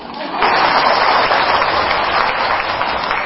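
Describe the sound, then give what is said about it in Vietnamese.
Audience applause at a Buddhist monk's lecture: dense, loud clapping that swells in abruptly and holds steady throughout. “Do đó thôi vỗ tay luôn đi.”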